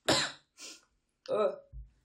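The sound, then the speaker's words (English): A short cough, then a brief sniff, then a voiced, groaning 'ugh', three separate vocal sounds with short pauses between them. “Like the cough, the sniff, and then the ugh.”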